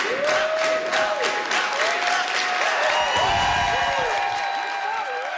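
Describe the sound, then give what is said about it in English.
Candidates chant a name over applause and cheering at a political campaign launch in Montreal's Old Port, a repeated rising-and-falling group chant that recurs in a steady rhythm with constant clapping beneath it. “As spokesperson Ruga Ghazal took to the mic, she was welcomed by a team of full of candidates standing behind her, chanting her name.”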